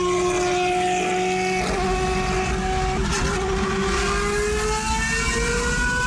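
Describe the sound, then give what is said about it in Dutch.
Engine roar of a GP2 single-seater race car in Ferrari livery driving on a public road: a loud, continuous, raspy drone with strong harmonic tones holding steady throughout. “Een GP2 bolide. Die is helemaal in Ferrari kleurstelling gesteld. En ja, die is op de openbare weg te zien. En dan hoor je dit geluid.”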